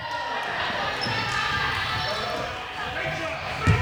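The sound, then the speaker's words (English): Basketball bouncing on a court during a game, under steady ongoing talk and a noisy background, with a louder thump near the end. “We had a real physical basketball with no fouls down here.”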